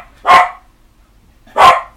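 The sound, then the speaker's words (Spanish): A dog gives two loud, single barks about a second apart, with near silence between them. “Hay un perro ahí. Es mi perro nazi.”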